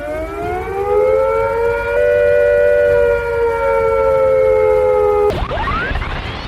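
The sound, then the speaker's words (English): A civil defence attack warning siren wails loudly and alone, holding a long sustained tone before it cuts off and a fresh rising sweep begins. “If attack is imminent, you will hear the attack sound like this.”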